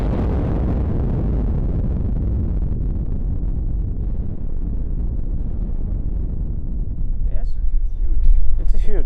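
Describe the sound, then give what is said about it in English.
Rock blasting in a quarry, charges set in freshly drilled holes, producing a deep, loud, continuous rumbling roar that holds for several seconds and swells slightly toward the end. “Holes are drilled for the next blasts. Now we feel the blasting works. It's 180 meters from this point.”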